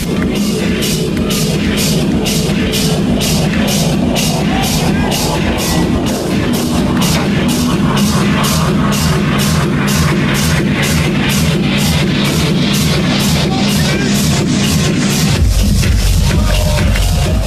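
Nightclub crowd at Fabric in London in 2013 with heavy electronic bass: a fast, steady kick pulse drives under dense crowd noise, loud throughout, and the low end grows heavier near the end.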